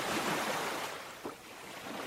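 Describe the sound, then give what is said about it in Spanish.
Sea waves washing in on a rising tide make a soft, continuous hiss with a brief surge partway through and no voices. “el mar, ignorando la orden del rey, comenzó a subir lentamente. La marea levantó las aguas”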